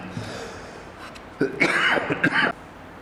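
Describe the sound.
A few rough, loud coughs and throat-clearing bursts in close succession, rising out of a quiet background hiss during a lecture.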